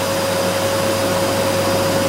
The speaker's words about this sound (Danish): Det der, det er en støvsuger. Det er rigtigt, det er en støvsuger.